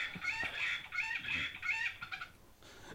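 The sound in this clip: Farmyard chickens cluck continuously while a rooster crows, the harsh, strained calls overlapping in a busy, fairly loud stretch with no talk.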